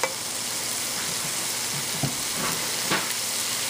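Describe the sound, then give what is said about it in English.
Food sizzling in a frying pan, a dense continuous crackling hiss with a few louder pops or stirring scrapes scattered through it. “So just want to get these just a little bit fried up”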